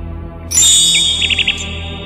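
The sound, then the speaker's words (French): Nightingale song: a few high, clear whistled notes, then a quick run of four short chirps, heard alone over a quiet background. “L'oiseau voltigea pendant quelques instants autour de Joringel, puis se percha sur une branche et se mit à chanter.”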